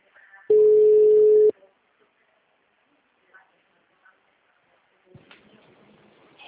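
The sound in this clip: Ringback tone on an outgoing telephone call: one steady, mid-pitched electronic beep lasting about a second, followed by near silence with faint clicks, then a voice begins speaking at the end.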